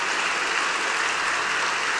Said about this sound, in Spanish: Un mejor aplauso para el Señor.